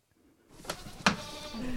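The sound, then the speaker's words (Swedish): Goats bleat faintly on a farm in the early morning at milking time, a few brief, thin calls and sharp sounds over a quiet background. “Ska vi heja på getterna? Säga god morgon.”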